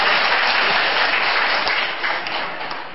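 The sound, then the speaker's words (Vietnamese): Applause from an audience gathered at a Buddhist ceremony: dense, steady clapping from many hands, loud throughout and easing slightly toward the end. “Mời mời lên đây đọc micro cho nó rõ để chúng xin đại chúng ở dưới vỗ tay thật nhiệt để cho con.”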